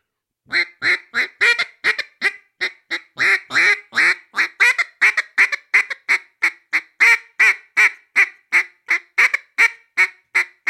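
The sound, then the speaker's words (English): Imitated bouncing hen turkey call: many short, sharp, raspy yelps in a quick, bouncing rhythm, loud and alone after a brief silence, with slight variations in spacing and strength. “so there's a couple different variations of that bouncing hen. I'll do a couple of them that I know.”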